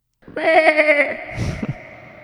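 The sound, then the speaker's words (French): A goat bleats once in the Swiss Alps countryside, a short, loud, wavering cry with a trembling, nasal tone, followed by a brief rough, noisy rustle as it fades out. “Puis là, tu entends la chèvre ou le mouton”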